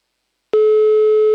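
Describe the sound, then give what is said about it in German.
A telephone line tone sounds as a call is placed to a caller: after half a second of silence, a loud, steady, mid-pitched electronic tone begins abruptly and holds unbroken to the end. “So, wen ruft man da jetzt an? Der Jakob ist dran.”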